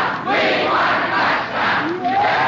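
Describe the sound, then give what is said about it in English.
A football crowd chants the cheer "We want a touchdown", loud rhythmic group shouting in repeated phrases with brief dips between them, the massed voices rising and falling together. “Don't forget to join us next week when you hear this cheer. We want a touchdown! We want a touchdown!”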